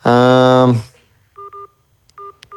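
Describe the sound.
Telephone keypad tones sound during a call transfer: four short, clean two-tone beeps in two pairs, after a brief drawn-out voiced sound at the start.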